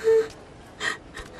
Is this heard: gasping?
yes